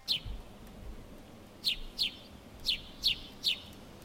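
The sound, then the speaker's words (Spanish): A small bird gives six short, high chirps, one at the start and then five more spaced through the second half, each brief and clear over a faint low rumble. “Sí. Bien, un pajarito.”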